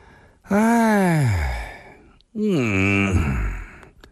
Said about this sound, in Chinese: 孙驼子长长的抻了个懒腰，打了个哈欠